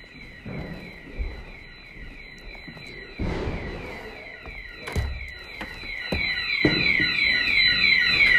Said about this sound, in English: So for those who wanted fire alarms,